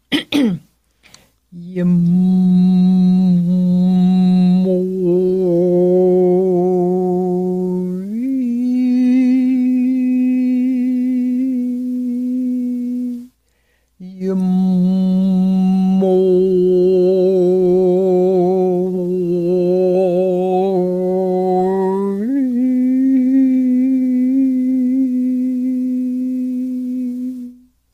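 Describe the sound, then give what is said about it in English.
Deep chanted vocal tone on the sacred sound Yamui, sung in two long sustained breaths with rich, steady overtones. The pitch steps up slightly partway through each breath, with a brief pause between the two breaths. “For example, there's this sound Yamui, which is the giver of life, which is really deep. in the lower centers, and it sounds something like this.”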